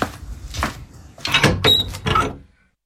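A door being shut, heard as several heavy knocks and rattles in quick succession, followed by silence at the end.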